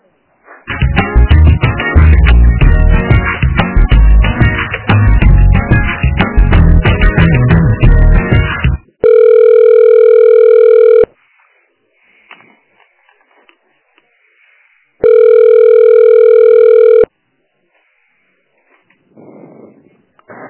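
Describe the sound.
A telephone line rings during a call transfer to an extension. Loud hold music gives way to two steady, buzzy two-second ring tones separated by silence, then a faint voice.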